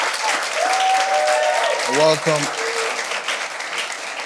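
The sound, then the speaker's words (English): Audience applause at a church service as a family of parents is welcomed, a dense, loud stretch of clapping that holds steady throughout, with a short vocal cheer rising over it midway. “Come on, let's jam our hands together.”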